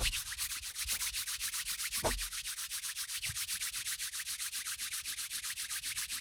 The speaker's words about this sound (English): you're going to start to rub your hands together